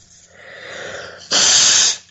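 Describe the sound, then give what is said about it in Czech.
A nose blow: soft breathy sniffing builds for over a second, then one forceful, harsh hissing blast lasts under a second and stops abruptly. No talk. “Tak, vysmrkace, pěkně, to je ono”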